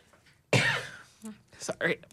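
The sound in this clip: A single loud, rasping throat clearing bursts out, then trails off into a few softer, brief vocal sounds.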